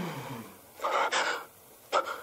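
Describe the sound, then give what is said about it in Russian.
A young man in a film scene draws a sudden, deep breath in, a loud airy rush lasting under a second. A second, shorter breath follows. “Резко выпрямляется. Делает глубокий вдох.”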